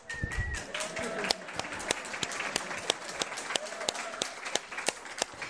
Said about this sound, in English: I accept a clap for that one, absolutely.